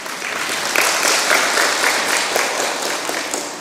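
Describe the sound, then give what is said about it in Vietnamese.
An audience of Buddhist lay followers in a dharma hall applauds during a nun's talk. The clapping is loud, dense and sustained, many hands overlapping into a steady rustling roar with faint individual claps flickering through. “Rất là giỏi, xin cho một tràng pháo tay ạ.”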